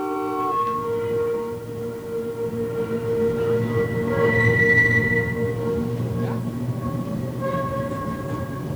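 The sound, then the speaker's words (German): A yellow tram runs on its rails with a steady low rolling rumble and sustained whining tones above it, holding an even level throughout. “Die gute gelbe Straßenbahn. Ich fahre mit der Straßenbahn.”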